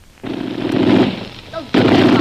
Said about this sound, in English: Well, it's been a long time since I put a machine gun together. I had to make sure it worked. Well, it worked all right.